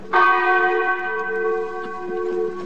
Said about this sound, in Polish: 309 uderzeń dzwonu, tyle ilu było zabitych.